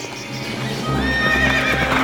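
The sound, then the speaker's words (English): Horses gallop with quick, steady, drumming hoofbeats that carry loudly through the whole clip, and a high neigh cuts in over the hooves partway through. “I sprang to the stirrup, and Joris and he. I galloped, Dirk galloped, we galloped all three.”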